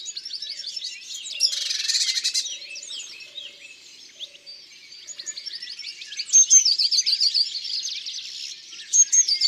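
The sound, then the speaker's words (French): A blue tit singing: many quick, high-pitched chirps and short trills in loose, rapid bursts, louder toward the end, with no other sounds. “Ça, c'est une mésange bleue.”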